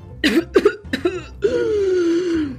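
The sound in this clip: Acted coughing by a storyteller voicing a prince who has just sipped from a cup: three short, sharp coughs followed by a drawn-out voiced throat sound that slowly sinks in pitch.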